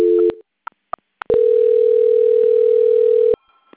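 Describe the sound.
A telephone call is transferred: a short tone and a few faint clicks are followed by a loud, steady, unbroken tone lasting about two seconds, which cuts off abruptly into near silence.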